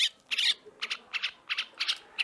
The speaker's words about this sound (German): Gleich wird eine Amsel beringt.